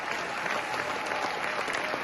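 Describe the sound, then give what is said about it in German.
Thunderous applause at a standing ovation in a large philharmonic concert hall after a choir performance, a dense, steady wash of many hands clapping without letup throughout. “Am Ende gibt es Standing Ovations und tosenden Applaus.”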